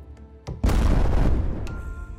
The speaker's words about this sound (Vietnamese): Một tiếng nổ đùng vang lên cả trời đất, nước bắn thành cột lên cao trên không trung.